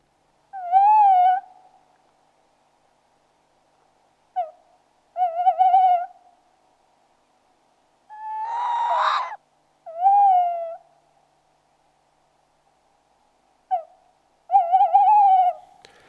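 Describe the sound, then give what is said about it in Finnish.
Tawny owl hooting in late winter in southern Finland: several mellow, quavering hoots spaced a few seconds apart, some short and some drawn out, with one harsher, noisier call in the middle, clear against a quiet background. “Lehtopöllön huhuilua voi näin kevät-talvella kuulla Vaasa-Lappeenranta-linjan eteläpuolella.”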